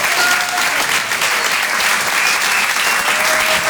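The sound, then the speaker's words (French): Audience applause fills a comedy club at a Paris theatre, a dense, steady clapping roar that holds at one level throughout, with no one speaking over it. “Faites un maximum de bruit, s'il vous plaît, pour Guillaume Guisset.”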